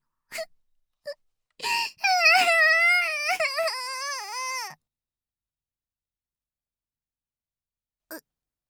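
A girl cries: a few short gasping sobs lead into a long, wavering, high wail that breaks into sobbing, then one last brief whimper after a pause.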